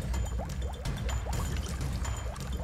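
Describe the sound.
Stirring of a thick, foul-smelling liquid mixture that is hard to move, giving a continuous wet, sloshing and bubbling texture with soft gurgles throughout.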